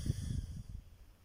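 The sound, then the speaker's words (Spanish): A slow exhale through the right nostril during alternate nostril breathing: a soft, low, airy rush that is strongest at first and fades out after about a second, with no talking. “Inhalo por izquierda. Sostengo y exhalo por derecha.”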